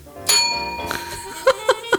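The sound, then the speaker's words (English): A bell is struck and rings with a bright, sustained tone that slowly fades, followed by a few shorter sounds. “I can't have you talking over my bell.”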